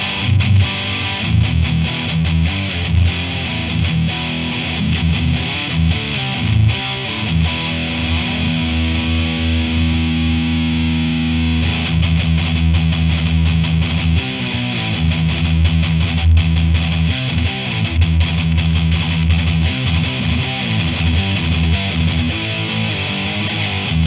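Distorted electric guitar played through a Seymour Duncan Distortion bridge pickup, giving a crisp, driven tone. Loud sustained chords ring continuously and shift at intervals, with no voices.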